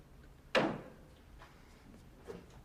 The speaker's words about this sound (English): Vincent rifles through the cupboard as the men wait tensely.